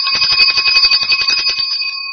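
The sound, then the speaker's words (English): A ringing bell: rapid, continuous trilling strikes with a bright, steady high tone, loud and alone for about two seconds, the clatter thinning at the end while the tone lingers. “You get the bell”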